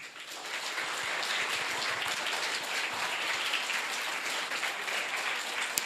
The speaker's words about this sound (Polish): Powitajmy gorąco, gorącymi brawami.